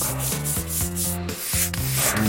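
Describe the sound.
A factory floor is scrubbed with brisk, rhythmic back-and-forth strokes, a loud, gritty rubbing that repeats steadily many times in quick succession with no voices.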